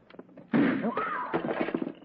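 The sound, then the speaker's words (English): A gunshot is fired at a telephone: one sudden, sharp bang cuts through a quiet background and is followed by a rough, lingering wash of noise that slowly fades. “Next time I shoot, I don't aim at no telephone.”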